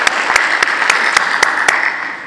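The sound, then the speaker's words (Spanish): Loud applause at an education conference in Peru, given for colleagues from Cusco. A dense bed of clapping runs throughout, and about seven sharper claps ring out above it at a regular beat. “Un aplauso a los colegas del Cusco.”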